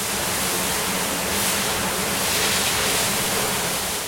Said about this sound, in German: Und während er mit dem Schlauch die Innenanlage abspritzt,